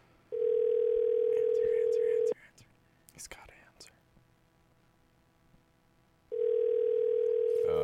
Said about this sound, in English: Oh, it's calling. Right. Wow. First time here. Crazy. A call. If he doesn't answer, I don't know what to do.